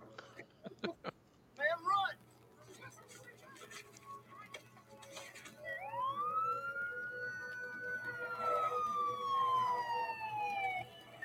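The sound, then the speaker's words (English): Wailing siren of an old police car in a played video, a few sharp clicks first, then a tone that rises and slowly falls over several seconds. “Those old cop cars, oh my gosh.”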